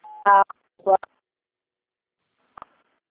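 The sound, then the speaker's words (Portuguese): Telephone keypad tones as a number is dialed during a call: a steady tone at the start, then bursts of talk, and two brief beeps near the end. “É porque a senhora está discando o número aí, eu não estou conseguindo ouvir.”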